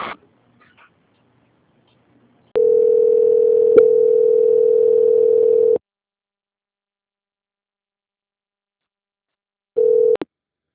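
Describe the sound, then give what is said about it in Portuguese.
A telephone line tone sounds while a call is transferred. A steady, low-pitched tone of about three seconds breaks off into silence, and a brief second tone follows near the end. “Eu vou pedir para o senhor, por gentileza, continuar na linha, tá? Já vai chamar para eles atenderem lá.”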